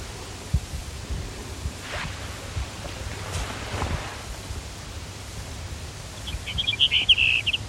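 Brewer's sparrow song, a short run of high, quick trilled notes near the end, rising above a steady background hiss with faint rustling and low rumble earlier on.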